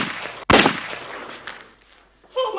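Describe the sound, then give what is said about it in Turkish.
A single gunshot rings out in a war drama, a sharp, loud crack about half a second in that fades gradually into a decaying tail. “Adam seni vuramadı değil mi çavuşum? Mermi boynumun dibinden geçti.”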